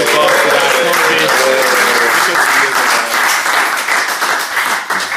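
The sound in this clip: Loud, sustained applause from a group at a two-day gathering welcoming a new arrival, thick continuous clapping with some voices mixed in, easing slightly near the end.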